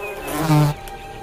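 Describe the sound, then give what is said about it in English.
A bee buzzes as it struggles inside the fluid-filled bucket of a flower: a steady, low droning wing hum that swells into a louder, tighter buzz for a moment midway before settling back. “Inside, the struggling bee gives off tiny bubbles of air.”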